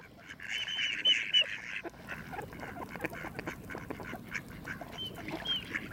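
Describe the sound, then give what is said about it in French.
A mallard duck calls with nasal, harsh quacks in a loud cluster at the start, then a quieter stretch, then a few more quacks near the end. “Lui, c'est le canard que vous connaissez tous, c'est le canard colvert.”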